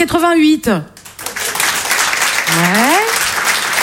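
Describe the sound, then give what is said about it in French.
A comedy show audience at the Open du Rire bursts into loud, steady applause after a voice speaks, and another voice rises over the clapping near the end. “Alors dans la salle ce soir déjà, par applaudissement, est-ce qu'il y a des gens qui étaient déjà nés en”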